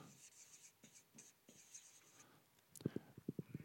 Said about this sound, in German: Ich schreibe es mal, ich weiß nicht, ob ihr es lesen könnt.